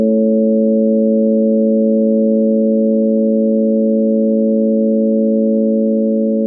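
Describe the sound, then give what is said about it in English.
A long, steady electronic tone stands for the radiation dose of a mammogram. It is a loud, constant low-pitched hum of a few stacked pure pitches, unchanging from start to finish, with nothing else heard. “This long tone goes on for a little more than 30 seconds.”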